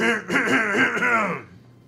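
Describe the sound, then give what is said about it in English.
A voice acting out a throat clearing for a character in a tabletop role-playing game: one continuous, gravelly voiced rumble lasting under two seconds, with a wavering pitch that fades out at the end. “He clears his throat after a couple seconds, and his throat puffs out real big.”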